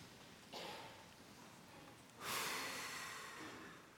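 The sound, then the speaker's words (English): A group takes a deep breath together during a prayer gathering: a soft, airy inhale, then a longer and slightly louder exhale, both quiet and with no talk. “So let's take a deep breath first.”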